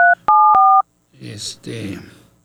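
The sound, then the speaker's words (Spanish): Telephone keypad dialing tones: three loud, clean beeps in quick succession, the last two running together. A person then starts talking. “A ver si nos contesta. Deme la oportunidad de marcarle.”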